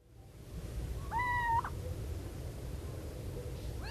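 A single little owl screech, a brief harmonic cry over steady low background noise, with quiet surroundings before and after.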